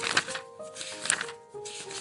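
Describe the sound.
Pages of a book being opened and leafed through, with a few soft papery rustles and flicks, faint against quiet background tones.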